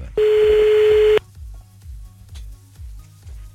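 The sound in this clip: Telephone tones as a call is placed to a contestant: a single steady beep lasting about a second, followed by a quick run of soft, low, evenly spaced pulses.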